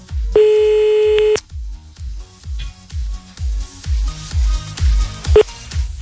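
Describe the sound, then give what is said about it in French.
A phone line being dialled for a radio prank call: a steady electronic tone lasts about a second, then cuts off into a regular series of short, pulsing low tones that repeat steadily. “Allez, c'est parti, on y va, on appelle grâce au numéro que vous avez envoyé sur le mail de Toff”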